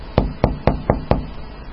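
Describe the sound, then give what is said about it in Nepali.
Knocking on a door: six even, evenly spaced raps in a steady rhythm, each a sharp dull thud, with the last one noticeably softer. “यहाँ ढोका ढकढकाइरहेको देखिनस्?”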